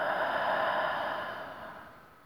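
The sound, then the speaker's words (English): A slow, deep breath during a guided breathing exercise: a soft airy rush, steady at first and then gradually fading out over about two seconds, heard alone. “Deeply in. And exhale to let go. Deeply in. And let go.”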